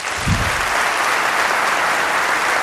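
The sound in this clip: An audience applauds to welcome a guest with loud, dense, steady clapping that holds at an even level throughout.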